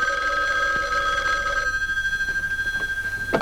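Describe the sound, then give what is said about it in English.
A telephone rings with an incoming call. A steady electronic tone gives way to a rapid, pulsing trill that carries on at an even level, with no voices. “And there's that third call, and this time it really is her husband.”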